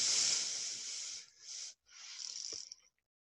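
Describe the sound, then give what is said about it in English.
A person breathes out while folding forward in a yoga pose: a soft, hissy breath that starts strong, breaks into a few shorter segments, then fades to silence. “And fold forward, breathe out.”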